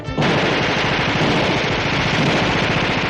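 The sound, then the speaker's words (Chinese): Dense, continuous automatic gunfire from many guns firing at once, a loud sustained rattle of rapid overlapping shots that runs without pause for about three seconds, with no voices. “外面无数支枪一起开火，”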